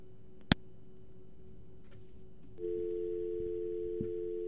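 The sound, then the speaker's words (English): Telephone dial tone on a cut call line: a sharp click near the start over a faint hum, then a steady, louder unbroken tone cuts in and holds to the end, with no voices. “Line was cut, unfortunately, so we'll drop that.”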